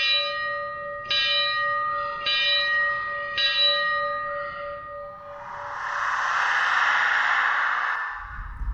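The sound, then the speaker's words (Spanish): Church bells ring out from a church with four heavy, sustained strikes that leave a humming tone, followed by a long, loud, broad rushing swell. “de pronto empezaron a sonar las campanas y se abrieron las puertas de dicha iglesia”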